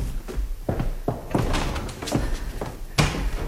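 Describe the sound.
A door being opened in a dramatised scene, heard as a series of irregular heavy thuds and wooden knocks of varying loudness, with no one speaking over them.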